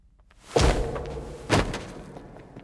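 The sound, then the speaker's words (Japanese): A door being unlocked and opened onto a service corridor: two heavy, muffled thuds about a second apart, with a low rumble lingering between them and fading after the second. “その先は搬入用の通路です。今ロック解除しますね。”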